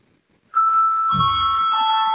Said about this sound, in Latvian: lūdzu zvanu.